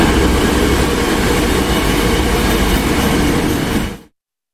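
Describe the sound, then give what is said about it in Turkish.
A high-speed passenger train with 221-seat capacity runs on the Çerkezköy–Kapıkule rail line, giving a loud, steady rushing roar with a deep rumble that holds evenly for about four seconds, then cuts off abruptly. “221 yolcu kapasiteli hızlı tren, hızlı ve konforlu ulaşım imkanı sunuyor.”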